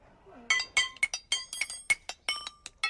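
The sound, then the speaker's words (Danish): Rusty metal pipes are struck against each other outside a farm among scattered junk. Many sharp, bright ringing clinks come in quick, uneven succession, each decaying briefly before the next. “Hun bøjer sig ned og fisker et par rustne rør op og begynder at slå på dem.”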